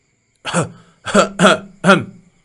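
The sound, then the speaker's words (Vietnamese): A person gives four short, dry coughs, rough and throat-clearing in character, with the second and third close together and the last set slightly apart. “Ngụy Vô Ý ho khan hai tiếng”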